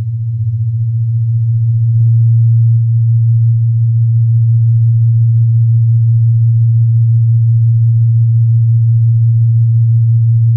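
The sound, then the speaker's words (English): A low pure tone hums steadily and loudly on its own, made from two tones set fifteen cycles per second apart to produce a rhythmic beat. “Okay, and then you'll hear a rhythm of 15 cycles per second.”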